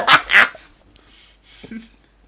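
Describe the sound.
A dog barks twice in quick succession, sharp and loud, then only faint, low scattered sounds follow.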